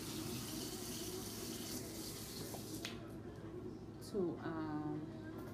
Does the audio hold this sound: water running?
yes

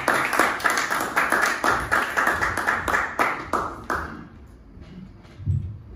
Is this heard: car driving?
no

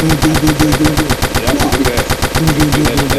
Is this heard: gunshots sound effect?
yes

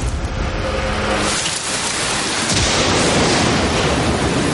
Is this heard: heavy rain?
yes

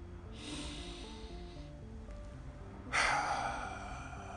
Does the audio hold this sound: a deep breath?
yes

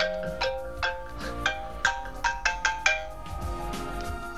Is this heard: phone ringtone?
yes

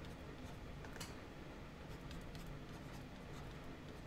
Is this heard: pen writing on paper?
yes

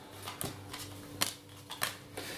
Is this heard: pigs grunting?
no

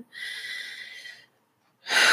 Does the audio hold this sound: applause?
no

